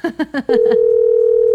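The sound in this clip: A steady, single-pitch telephone line tone plays while a call waits to connect. It starts after a brief stretch of talk and holds unbroken and loud to the end.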